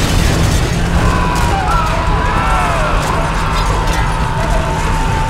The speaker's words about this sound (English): Behind them, and then all around them, the ground began to rumble. Ryan glanced just once over his shoulder and saw the face of the building falling away, slipping onto the street.